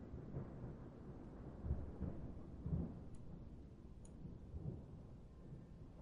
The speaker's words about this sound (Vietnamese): tại Mai Châu, Hòa Bình, trời đang đổ mưa lớn, tiếng sấm nổ rung chuyển cả đất trời.